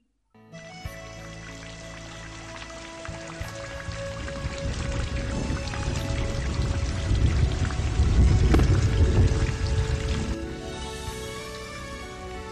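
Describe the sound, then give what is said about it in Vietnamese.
A night storm of gusting wind and pouring rain: steady, heavy rain hisses throughout while deep thunder rumbles swell and grow louder toward the middle. “Đêm hôm đó, lại là gió giật mưa tuôn.”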